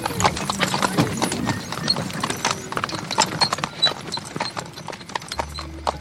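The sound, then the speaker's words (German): Horse hooves clip-clop steadily as a horse-drawn wagon rolls out at night in Louisiana. Many crisp, evenly spaced hoof strikes continue throughout, with a low hum entering near the end. “Ich verstaute das Glas auf dem Rücksitz meines Pferdewagens. Dann fuhr ich los.”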